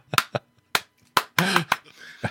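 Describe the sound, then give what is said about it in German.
Hands clap into a camera: several sharp, separate claps with uneven gaps between them, and a brief voiced sound partway through. “Warte, bevor du dein Schandmaul aufmachst, klatsch nochmal schnell in die Kamera.”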